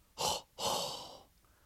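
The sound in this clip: Hot breath blown straight into a microphone: two loud, breathy huffs, a short one followed by a longer, rougher one that trails off, with no speech.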